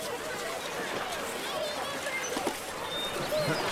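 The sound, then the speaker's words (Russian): A boat coming up to the shore of a river beach, with faint splashing water beneath a hubbub of chattering voices. “Совсем к берегу подплыла лодка.”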